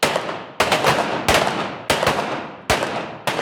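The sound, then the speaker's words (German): Six sharp pistol shots are fired in a duel shooting discipline at an even pace of roughly one every two-thirds of a second. Each loud crack is followed by a short ringing decay, with no voices. “Duell heißt, die Waffe wird zwischen den Schüssen nicht gesenkt und die Zielscheibe wird gewechselt.”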